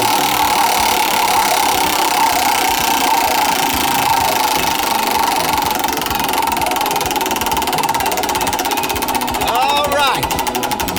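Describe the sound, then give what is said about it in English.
Prize wheel spun on a game show, giving a dense, rapid stream of ratcheting ticks that runs steadily for about eleven seconds, with voices underneath. “Well, it's all depending on how the wheel falls here. Okay. I'm going to spin it.”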